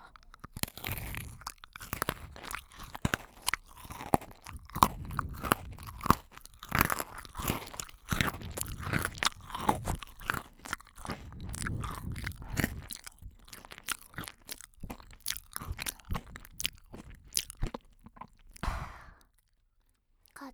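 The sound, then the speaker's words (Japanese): Someone crunches and chews chocolate-coated biscuit sticks, producing many rapid, crisp bites and crackling chews in a dense, irregular stream. The sound ends in a brief silence. “私もお兄さんも大好きなポッキーチョコレートだよ。”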